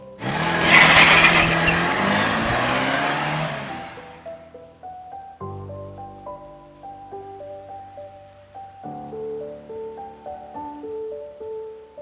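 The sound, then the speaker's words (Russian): A taxi pulls away: a loud, broad rush of engine and tyre noise swells and then fades out over about four seconds, leaving soft, sparse music notes alone afterward. “И резко подтянув на себя дверь, трогает с места.”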